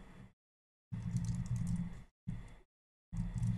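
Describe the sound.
Typing on a computer keyboard in a few separate bursts of rapid key clatter, the longest lasting over a second, with silent gaps between them.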